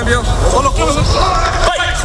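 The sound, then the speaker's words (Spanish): Voices and outdoor hubbub from a professional football team's first-day training session, loud overlapping talk and crowd-like murmur that runs steadily through a brief stretch without clear ball sounds. “este es el sonido de Mourinho entrenando hoy en Valdebebas”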